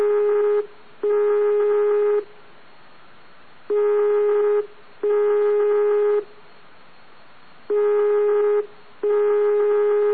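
Ringback tone sounds on a telephone line while a call waits to be answered: three double pulses of a steady buzzing tone, each pair followed by a pause, repeating evenly over low line noise.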